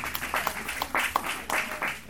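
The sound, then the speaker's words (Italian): An audience at a film discussion event applauds with a steady patter of many hands clapping, moderately loud with small uneven surges. “Un applauso a Emanuele Nardi.”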